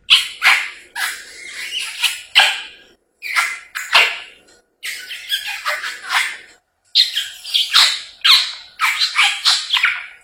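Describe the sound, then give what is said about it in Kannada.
A parrot squawks in loud, harsh bursts, repeated in four clusters of rapid cries separated by short pauses; no one speaks. “ದಾರಿಯಲ್ಲಿ ಹೋಗುವಾಗ ನನಗೆ ಒಂದು ಗಿಳಿ ನೋಡಿದೆ. ಆ ಗಿಳಿ ಈ ರೀತಿ ಕೂಗುತ್ತಿತ್ತು.”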